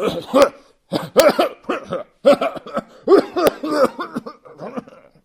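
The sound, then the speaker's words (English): A voice imitates a man's hacking cough, delivered as a few harsh, voiced bursts with short gaps between them and no other sound around them. “How long have you had that cough?”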